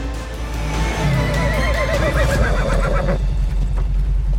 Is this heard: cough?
no

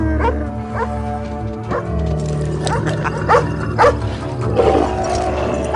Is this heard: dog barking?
yes

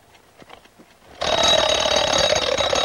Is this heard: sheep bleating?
no

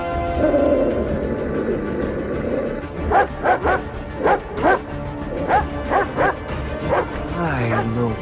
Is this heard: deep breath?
no

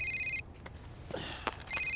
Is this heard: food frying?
no

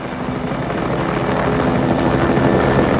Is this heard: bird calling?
no

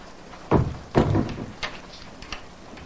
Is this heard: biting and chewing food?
no

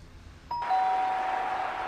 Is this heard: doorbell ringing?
yes

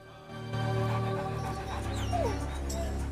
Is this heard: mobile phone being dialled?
no

